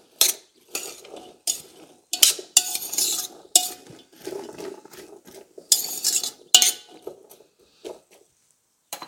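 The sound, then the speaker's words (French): A utensil stirs partly cooked food in a pan, making many irregular scraping strokes and metallic clinks against the pan in uneven bursts, loud at times and then trailing into quiet at the end. “Je vais jeter un œil à ma pré-cuisson. Je tourne un peu.”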